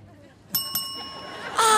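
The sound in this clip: A quiz contestant's buzz-in bell rings during a live game show held outdoors in a city park: two quick bright dings, then a ringing tone that fades as voices come in at the end.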